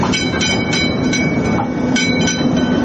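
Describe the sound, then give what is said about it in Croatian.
Rumble and rhythmic clacking of a replica of the first electric tram riding on rails through the streets of Sarajevo, steady and loud, with repeated wheel clicks over a continuous roar and no voices. “Sarajevskim ulicama provozala se replika prvog električnog tramvaja.”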